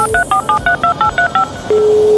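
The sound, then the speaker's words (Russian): Telephone keypad tones play as a quick, evenly spaced run of short two-note dialing beeps. A steady, unbroken single tone follows the run and lasts to the end. “У нас телефонный звонок.”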